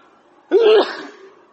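A single sharp human sneeze bursts out, loud and brief, with a breathy, noisy tail that fades quickly back into near silence.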